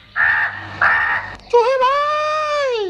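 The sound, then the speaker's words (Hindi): A crow caws twice in harsh, raspy bursts, each lasting about half a second, and then a voice follows with a drawn-out tonal sound. “कौवा चूहे के पास पहुंचा और बोला,”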